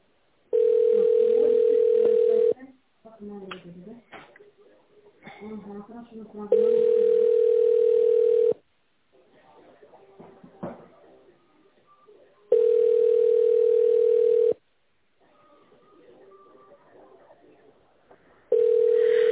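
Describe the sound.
Telephone tones sound while a call is being transferred to a specialist. A steady, level tone about two seconds long repeats four times, the last cut short, with faint voices and line noise in the gaps.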